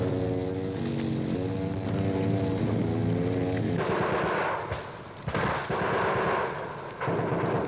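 Heavy enemy gunfire at a jungle landing zone being cleared in combat. A steady droning engine tone gives way to loud, rattling bursts of shots that arrive in a few long volleys.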